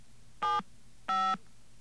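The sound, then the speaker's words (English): Telephone dialing tones on an outgoing line: two steady, clear electronic beeps of similar pitch, each lasting about a quarter second, over a low, constant hum. “Let's see if we can get an outgoing line. Let's see if we can actually get connected to this number.”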